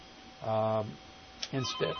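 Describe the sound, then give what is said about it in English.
An incoming call rings on a telephone as one short electronic burst with a steady, buzzy tone, followed by a brief spoken voice. “Instead, I'll take this phone call”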